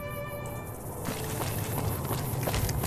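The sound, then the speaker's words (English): Wind blows across a desert in a video game near Nipton, a steady broad hiss that swells slightly after the first second, where a faint tonal hum fades out; soft, regular footfalls tap underneath. “There's a big Blowy desert. I just called it a blowy desert. Windy out here.”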